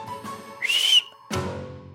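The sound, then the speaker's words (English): Dog-training stop whistle blown as one straight, high-pitched note: a single short, steady blast that stands out clearly between quieter low background noises. “I have a run whistle, which is a stop whistle is just a straight stop note.”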